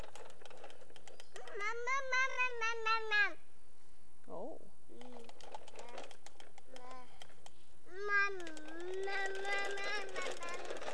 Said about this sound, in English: Is that the kitty?